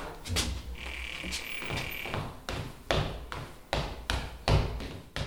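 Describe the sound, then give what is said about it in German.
A cellar door opens with a sustained high creak, then a steady series of thudding footsteps descends the stairs, each step a sharp, evenly spaced knock. “Sie öffnet die Kellertür und geht hinunter.”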